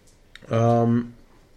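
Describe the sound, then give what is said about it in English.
A single short, low, voiced burp after eating a Swedish Fish candy, a brief throaty belch standing alone. “Excuse me, I just burped from eating a Scandinavian swimmer.”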